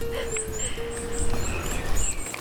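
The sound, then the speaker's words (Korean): Birdsong rings out along a forest path: several high, thin chirps and short whistled phrases repeat through the whole stretch over a steady bed of low rustling and footstep-like noise, with a faint tonal hum underneath. “오, 새소리. 야, 새소리 들리고.”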